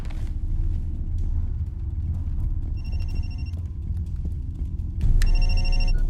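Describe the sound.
Telephone ringing: two bursts of bright electronic trilling over a steady low hum, the second louder and longer than the first.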